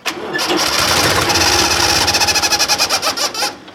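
An engine runs at its lowest revs with a loud, steady rumble. Its firing pulses become distinctly audible as a rhythmic throb before the sound drops away at the end.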